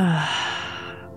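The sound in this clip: A slow, deep exhale during a guided relaxation breathing exercise, a single breathy, slightly voiced sigh that starts loud and gradually fades over about a second.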